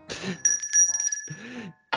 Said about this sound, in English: I ring the bell.